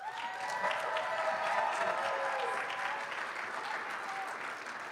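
Audience applause welcoming panel members at a panel event in Minnesota: dense, steady clapping that holds evenly throughout without a break.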